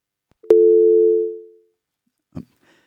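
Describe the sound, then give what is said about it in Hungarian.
A telephone line tone from an incoming call that fails to connect: one steady, mid-pitched electronic tone lasting about a second before fading out, followed after a gap by a short click. “látom, hogy van egy bejövő hívás. Dicsértessék a Jézus Krisztus!”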